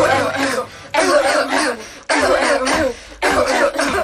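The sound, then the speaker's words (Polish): Coughing in four long, rough, voiced bursts of roughly equal length, each separated by a brief gap and fairly loud. “Tymczasem ja próbuję znaleźć coś, co opisałam sobie jako kaszel.”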